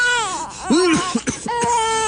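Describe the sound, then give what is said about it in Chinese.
A hungry infant cries on a heated brick bed in a rural home, in wavering, wailing bursts with short catches of breath between them. “哭哭，就知道哭。”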